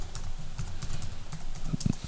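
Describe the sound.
Fingers typing a reminder on a computer keyboard: many quick, light keystrokes tapping in an uneven run, with a couple of slightly heavier thumps near the end.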